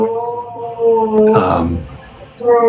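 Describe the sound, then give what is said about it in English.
Neighbours drilling two floors up give a sustained tonal whine that shifts in pitch, broken midway by a short, noisier, rougher burst before the steady whine returns. “For those listening, this is not the Requiem. This is my neighbors two floors up doing some kind of drilling”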